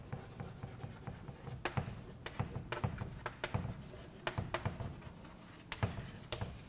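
Writing on a board during a lecture: many short, scratchy strokes and taps in an irregular rhythm, faint and alone without talk.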